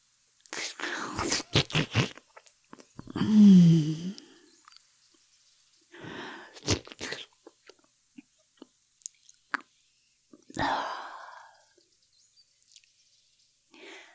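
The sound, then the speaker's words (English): Licking: several soft, wet, squishy bursts separated by near-silent gaps, with faint smacking ticks scattered between them. “That was only just a lick.”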